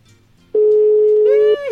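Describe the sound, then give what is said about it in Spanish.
Telephone line tone as a call is being connected: a single steady, mid-pitched electronic tone that starts abruptly, holds evenly for about a second and then cuts off. “vamos a esperar a que se enlace la llamada para sacarla al aire”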